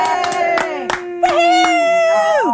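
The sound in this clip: A studio audience cheers and applauds as a guest is welcomed onto a talk show: loud whoops and yells over scattered claps, sustained for the whole moment.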